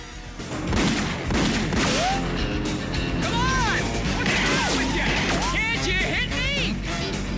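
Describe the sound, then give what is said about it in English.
Kidnappers lean out of a van window and fire at a pursuing car: rapid gunshots and sharp cracks mixed with crashing impacts, with voices in the mix throughout. “The kidnappers lean out of the window and shoot”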